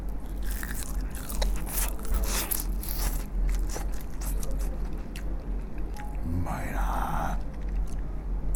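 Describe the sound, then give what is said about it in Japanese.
Biting and crunchy chewing of deep-fried pufferfish (fugu karaage), with many crisp crunches and scraping, mouthy textures running steadily over several seconds. “フグの身ってあの身離れがいいんで、ほろっときますね。もう一匹いっちゃおう。いただきます。”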